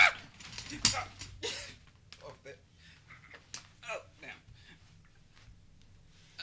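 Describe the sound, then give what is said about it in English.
A person falls out of a chair, with a sharp thump near the start followed by scattered creaks, rattles and knocks of the seat at fairly low level. “Okay, I just fell out of my seat on the podcast, but you know, it's all good.”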